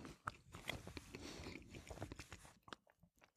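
Bread being bitten and chewed during a cheese tasting produces faint, irregular crunchy bursts and soft mastication sounds in an uneven rhythm.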